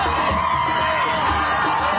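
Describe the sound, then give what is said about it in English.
Crowds cheer and shout as they greet a bus carrying freed hostages returning to Israel from Gaza, a dense, steady roar of many voices with no pause. “A bus carrying hostages is greeted by crowds on their return to Israel from Gaza.”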